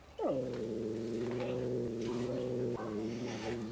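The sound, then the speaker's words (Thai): A cat gives a loud, drawn-out threatening yowl as resident animals confront a newcomer. The cry starts with a falling pitch, then holds a steady, strained tone with a brief break near the end. “ครับก็มีการขู่กันนะครับทั้งตัวที่อยู่เก่าอยู่แล้วเนี่ยครับก็จะมีการแสดงความเป็นเจ้าของพื้นที่แล้วก็ตัวใหม่เองเนี่ยก็ไม่ใช่ตัวที่จะเข้ากับใครได้ง่ายเหมือนกันนะครับ”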